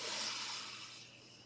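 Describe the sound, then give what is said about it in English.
A deep breath in and out during an opening breathing exercise: a soft, breathy hiss that starts fairly full and slowly fades over about a second and a half, faint and alone. “we're going to all just take in a deep breath right now where you are. Just take a deep breath in”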